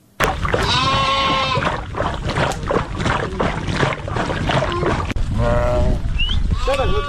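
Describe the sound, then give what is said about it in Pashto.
A herd of nomads' sheep and goats bleats loudly and continuously, with many overlapping cries that wave in pitch throughout. “دا راپور یې پرې چمتو کړی چې د کوچیانو د رمې په غږ سره پیلېږي”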